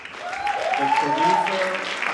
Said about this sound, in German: bricht der Applaus los.